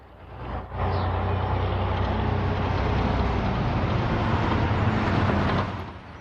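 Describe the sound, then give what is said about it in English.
A solitary car chugs by on a quiet suburban street, its rumbling engine noise swelling in early, holding steady for several seconds, then dropping away at the end. “They look pessimistically around the quiet suburban street they're on. A solitary car chugs by.”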